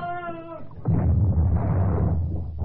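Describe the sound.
A ship's cannon broadside fires in a radio drama. A deep, heavy roaring blast starts suddenly and rumbles on loudly for nearly two seconds, following a short tonal sound at the start.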